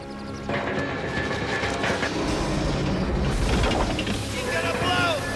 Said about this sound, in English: They look up to see the machinery shake, red lights flash, and the plates of the gravy reservoir leak at the seams.